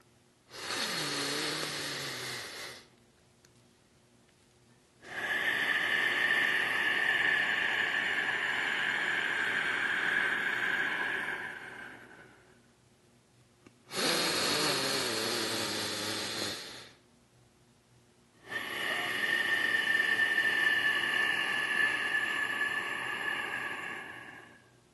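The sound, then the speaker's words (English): Audible yoga ocean breathing is drawn through a constricted throat in four long breaths, each a soft, steady hiss lasting several seconds, with quiet pauses between them. “Your breath is going to be in through the nose and out through the nose. Very deep breaths. And it should sound like a furnace or ocean breath.”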